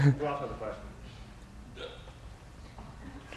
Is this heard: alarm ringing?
no